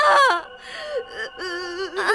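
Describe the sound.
Someone cries in a high, wavering voice, whimpering and sobbing in several breathy bursts with sliding pitch.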